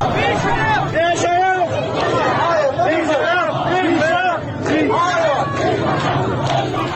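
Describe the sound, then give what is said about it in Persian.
Protesters chant slogans in unison in front of the governor's office: a dense crowd of many voices, loud and continuous, with rhythmic rising and falling shouts that never break over the seven seconds. “اونجا شروع میکنن به شعار دادن که صدای شعار رو با هم میشنویم.”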